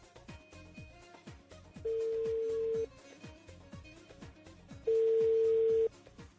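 Ringback tone of an outgoing telephone call: two long, steady beeps separated by a pause, heard over rhythmic background music.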